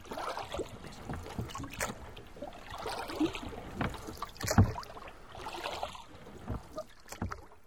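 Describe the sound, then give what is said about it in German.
Oars dip and splash as a boat is rowed toward a rope ladder dangling just above the water from a ship, with irregular watery sloshes and a rushing, breezy background throughout. “der dicke Sven und ruderte zu der Strickleiter”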